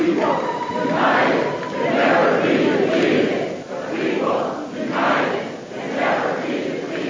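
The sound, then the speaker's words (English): Protesters packed inside the North Carolina state legislative building in Raleigh during a Moral Monday protest chant and shout together. Their loud crowd voices swell and ebb in a repeated rhythm of rising bursts. “That's the sound of protesters packed inside the state legislative building.”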